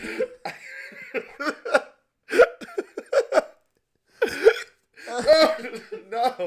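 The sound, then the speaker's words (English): Hiccups from a person who keeps hiccupping whenever they laugh: a few short, sharp voiced bursts come in clusters separated by brief silences, with breathy, laugh-like catches between them. “No, that I have the hiccups. Get rid of it. I can't. Every time I laugh, I get”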